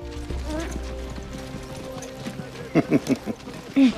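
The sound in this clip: A camel caravan moving along, rhythmic clip-clop of footfalls with creaking, ratcheting tack, ending in a few louder thuds.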